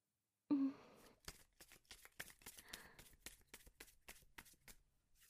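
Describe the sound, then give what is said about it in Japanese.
Playing cards being reshuffled: a quick run of crisp, fluttering riffles and short snaps following closely on one another, fairly faint and without talk. “じゃあカード切り直すわね。”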